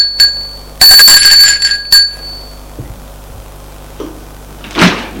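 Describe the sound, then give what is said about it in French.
A doorbell rings at a parents' house with a few bright, metallic ringing bursts close together, followed by near silence. “Sonne chez ses parents.”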